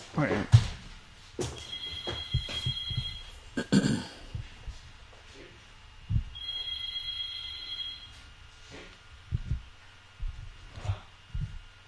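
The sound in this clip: Electronic telephone ringing for an incoming call: two sustained bursts of a bright warbling ring, separated by a pause, with people talking before, between and after them.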